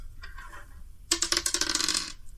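An eight-sided die is rolled for damage in a tabletop role-playing game. It clatters and rattles across a hard surface in a quick burst of many small clicks lasting about a second, after a quieter opening.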